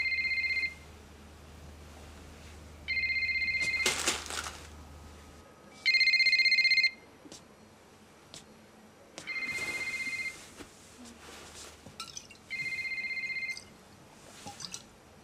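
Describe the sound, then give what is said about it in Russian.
A mobile phone rings in a flat. Its electronic ringtone sounds in five separate bursts a few seconds apart over faint background noise, with occasional brief knocks between rings. “Звонит Кристине. Она в это время идет по квартире и закинула куда-то телефон.”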